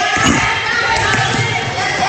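A basketball is dribbled on court during a women's basketball game. A few quick bounces sit beneath loud crowd noise and commentary.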